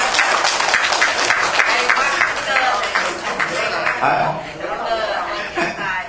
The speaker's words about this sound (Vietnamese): Xong vỗ tay tán thưởng luôn.